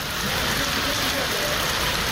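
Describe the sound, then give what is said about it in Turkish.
Hail falls on a parked car in a garden, making a dense, continuous pattering hiss that stays steady and fairly loud throughout, with no clear gaps. “Bir vatandaş da bahçesinde park halindeki aracın üzerine dolu yağdığı anları cep telefonu kamerasıyla kayda aldı.”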